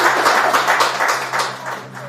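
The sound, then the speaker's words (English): A round of applause rings out: many hands clap in a dense, fairly loud patter over a steady low hum, easing slightly toward the end. “And a round of applause for it.”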